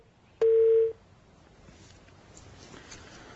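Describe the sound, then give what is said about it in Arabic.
A telephone call tone: one steady electronic beep lasting about half a second, followed by faint low background hiss. “عفوا اتصال”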